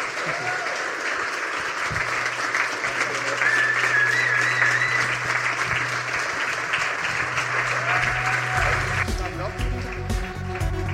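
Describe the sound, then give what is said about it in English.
An audience at a live show at SWG3 applauds loudly and without a break through most of the stretch, while a voice speaks over it. The clapping changes and thins near the end. “can we have a massive round of applause for a remarkable guy?”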